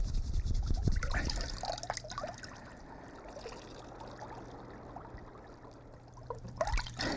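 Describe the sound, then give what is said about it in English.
Water splashing and trickling as someone washes leprosy sores, following Elisha's instruction in a children's Bible story. A fuller splash opens, then a soft steady trickle, and a second splash comes near the end. “I'm going to wash just like Elisha said. Ooh, boy, it hurts. Those leprosy sores are tender. Wash again.”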